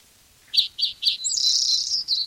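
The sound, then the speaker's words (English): A black-throated gray warbler sings three short, high buzzy notes in quick succession, followed by a longer sustained buzzy phrase and one final short note, clear against a quiet background. “Blackthroat Grey Warbler in there.”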